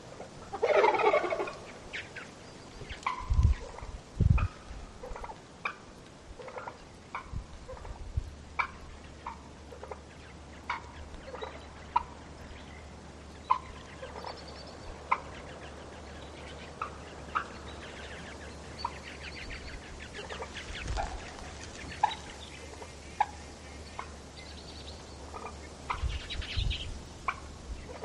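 A turkey gobbles in a Staten Island sewer with a short, raspy burst at the start, followed by many scattered faint ticks and clicks over a steady low hum.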